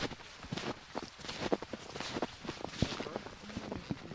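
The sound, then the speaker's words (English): Snowshoe footsteps crunching on a snowy forest trail, many faint, irregular steps that keep a loose walking rhythm throughout. “So we're walking along the trail still. We're getting deeper into the woods.”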